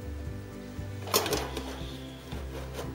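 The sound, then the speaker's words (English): A metal cake pan filled with batter is set into a lidded pot fitted with a wire rack and perforated plate over salt. One brief knock and short rattle stands out over a quiet low hum. “So now I'm going to place the cake batter into it.”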